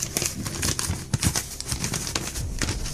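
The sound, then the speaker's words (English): A paper envelope being opened, with dense crinkling and crackling of paper in quick irregular bursts and a few slightly louder tearing snaps, moderate in volume. “Do I open up the envelope and read the instructions?”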